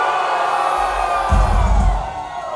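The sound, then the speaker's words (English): A concert crowd at a heavy music show cheering, shouting and whooping in a loud, dense, continuous roar with a swelling low rumble in the middle. “Let me hear some fucking noise, man. Get some motherfucking noise.”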